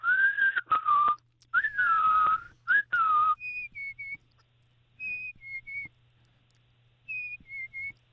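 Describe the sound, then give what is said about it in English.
A person whistles an imitation of a black-capped chickadee call: clear, falling two-note whistled phrases repeated a few times, followed by several higher, fainter whistled phrases separated by pauses. “Well, what you're hearing, I think, it sounds like you may be hearing the black-capped chickadee.”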